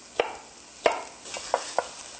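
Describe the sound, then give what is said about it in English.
A knife chops straight down through stacked bell pepper halves with seeds removed, making several sharp, crisp strikes at irregular intervals, with no talking. “Open it up and voila, get rid of the seeds. I like to stack it up by twos and then just chop straight down.”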